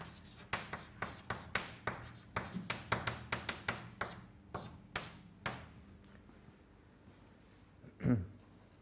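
Writing by hand during a physics lecture as equations are set down: many quick, scratchy strokes in an uneven rhythm that thin out and stop, followed after a pause by a single heavier thud near the end.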